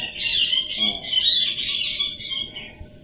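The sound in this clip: Birds squabbling with one another, a continuous stream of high chirps and twittering calls that runs for about three seconds over a faint low rumble.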